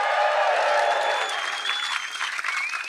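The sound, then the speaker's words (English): An audience applauding in a festival circus big top, with dense, sustained clapping throughout that eases slightly in the later part. “Let's hear it for the Hot House!”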